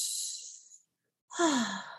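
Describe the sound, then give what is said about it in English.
Tense, demonstrative breathing: a hissy, airy breath, a brief silence, then a second forceful breath carrying a strained voiced groan that falls in pitch, fairly loud and alone. “Tense breath would look and sound something like this.”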